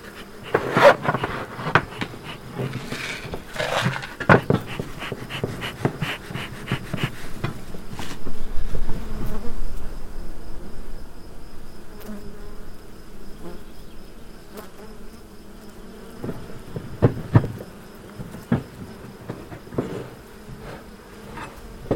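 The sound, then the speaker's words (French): Honeybees buzz at a hive being calmed with smoke, a steady droning hum with louder swells as insects pass close, plus occasional faint taps and knocks. “La fumée va les calmer, ça va les occuper, ça va les obliger à ventiler. Pendant ce temps-là, on peut travailler sur la ruche.”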